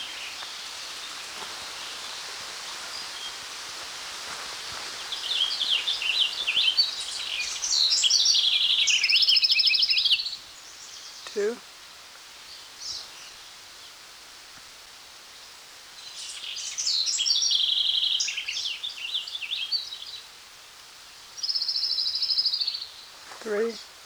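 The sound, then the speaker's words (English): Song of an orange-crowned warbler of the Arresta subspecies: a few high, buzzy trilled phrases separated by pauses, set over a steady background hiss with a couple of faint clicks. “An orange-crowned warbler of the subspecies Arresta.”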